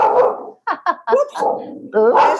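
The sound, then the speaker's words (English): A dog barks and yips in a few short, loud, high bursts, some bending into whining tones, with brief gaps between them. “I think your dog might agree on that.”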